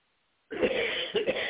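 A dry throat produces a sudden cough and throat clearing after a moment of silence, then a few rough, raspy bursts in quick succession.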